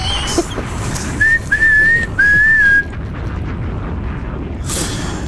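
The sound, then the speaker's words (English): A whistle being blown in a few short, high tones with a slightly wavering pitch, heard over a low, rough background noise. “You said blow the whistle.”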